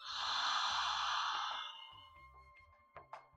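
A deep inhale during a guided relaxation breathing exercise: one long, steady, airy breath that holds for about a second and a half before fading, followed by a few faint, brief breath sounds.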